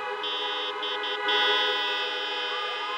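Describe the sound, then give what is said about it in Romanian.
Horns honk together at a concert in Bucharest, sustained overlapping tones held steady for about three seconds, with one tone sliding upward near the end. “Un rând de claxoane”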